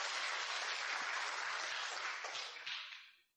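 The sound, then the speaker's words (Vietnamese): Audience applause, quiet and evenly dense, a smooth hiss of many hands that holds steady and then tapers away to nothing at the end. “Mời giơ tay. Hoan nghênh đời sau của vua Thuấn. Mọi người vỗ tay khích lệ một chút.”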